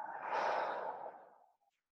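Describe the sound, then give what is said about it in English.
One deep, airy breath out in a relaxation exercise, a soft sighing rush that swells quickly, then fades smoothly into silence in under two seconds. “And take a big deep breath in. Exhale.”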